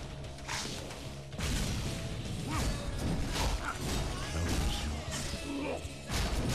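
A guitar attack in a video game crashes and smashes in dense, loud bursts with whooshing sweeps, filling nearly the whole clip with brief gaps between hits.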